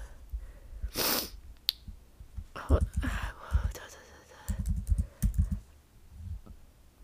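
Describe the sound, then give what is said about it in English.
Typing on a laptop keyboard comes in quick clattering bursts of key clicks, separated by pauses and soft breaths. “I typed in booktuber without one of the B's in it.”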